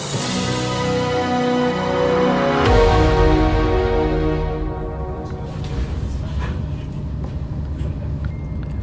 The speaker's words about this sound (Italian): Siamo partiti, la prima parte del viaggio si fa in treno.